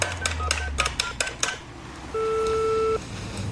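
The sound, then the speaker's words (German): A telephone number is dialed on a keypad, a quick series of short beeping tones followed by a longer steady tone. “Wählen Sie Ihre Nummer. Ich rufe Sie an.”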